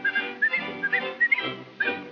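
Whistling of a cheerful tune, a run of short, bright, clear notes in a lively rhythm, moderately loud and with no talking.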